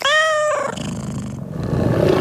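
A tiger roars loudly, opening with a tonal, harmonic cry that breaks into a rough, noisy growl rumbling on for about two seconds.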